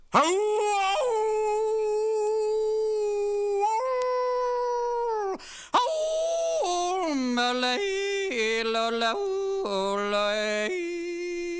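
A drawn-out howl at the moon like a coyote's: a long, sustained, harmonically rich wavering note that breaks off briefly, then continues as a series of shifting, gliding tones that rise and dip in pitch. It is loud and steady throughout.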